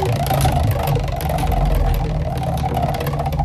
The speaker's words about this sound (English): we're going to spin that wheel for you. Here we go.